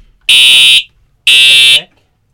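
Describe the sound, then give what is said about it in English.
Fire alarm sounding two loud, high-pitched electronic tones, each about half a second long and steady, separated by a short silent gap. “Is that a fire alarm? Yes, fire”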